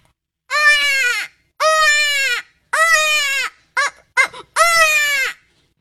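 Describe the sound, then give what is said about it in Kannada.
A person mimics a goat bleating: four long, wavering, nasal bleats with two short clipped bursts between the last two, loud and alone. “ಮೇಕೆ ಕೂಗುವುದು, ದೊಡ್ಡ ನಾಯಿ ಮತ್ತು ಸಣ್ಣ ನಾಯಿ ಕೂಗುವುದು”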